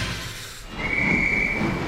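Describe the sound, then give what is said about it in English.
A train departure sound effect: a low rumbling and hissing bed that swells, then a steady high whistle-like tone that holds from just under a second to the end. “Aboard! The train now departing from HFM is the Mole Train.”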